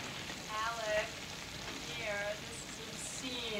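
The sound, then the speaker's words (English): Vegetables sizzle and crackle as they are stirred in a frying pan, a steady hiss with soft scraping surges under people talking. “Stir those vegetables.”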